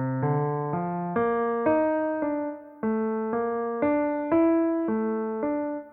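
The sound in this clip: Cello playing its line in a string quartet arrangement: warm, low, bowed notes follow one another in a connected phrase, each held with a slight swell, played solo at moderate loudness.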